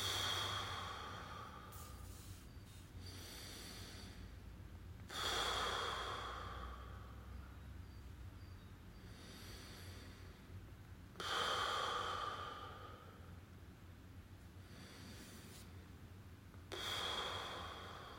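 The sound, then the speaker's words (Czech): Slow, deep breaths are drawn in through the nose and let out through the mouth, soft and faint breathy hisses repeating in a few unhurried cycles, with no talking. “A na začátku si můžeme dát pár hlubších nádechů a výdechů. Nádech nosem, výdech pusou.”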